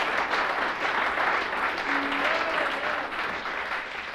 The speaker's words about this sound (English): Nice hand for Marshall Wilburn. Hey, make him welcome.